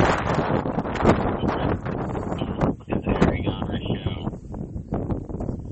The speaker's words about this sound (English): Man, the wind is gonna be so loud. How loud is the wind?